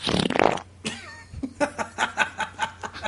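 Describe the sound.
A fart from a person's butt: a loud, raspy burst at the start, then a run of short, rhythmic, chuckle-like bursts.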